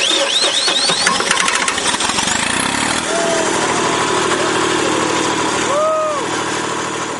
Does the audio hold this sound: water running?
no